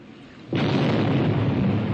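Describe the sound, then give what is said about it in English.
An explosion on a burning ship: a sudden loud blast that bursts in and carries on as a dense, steady roar of rumbling fire and debris until the end. “And then a second ball of fire rose from the bow of the ship. And then another and another explosion until instead of a ship, I was looking only at fire.”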